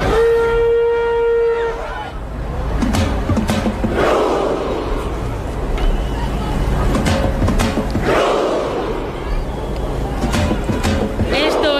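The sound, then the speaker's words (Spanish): A football crowd performs the Viking clap chant: a long horn-like tone opens, then a loud, roaring crowd with spaced, synchronized clap-and-shout bursts. “El Viking Row, que ya se ha hecho viral en TikTok, que lo hacen los noruegos sí lo y los que no son noruegos”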